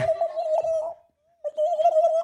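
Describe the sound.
A turkey sound effect: a tonal, cooing bird call in two bursts separated by a brief silence, steady in pitch, moderately loud and heard alone without talk.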